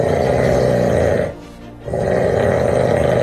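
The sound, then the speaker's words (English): Loud snoring from a man in Cape Town. One long, rough, rasping snore is followed by a short quiet pause, and then another snore begins. “They're going to go, hey, is that Cape Town's loudest snorer?”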